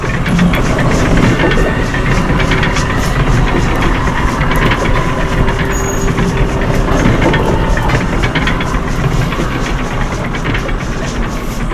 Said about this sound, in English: Engineer William Phillips drives the locomotive pushing the plow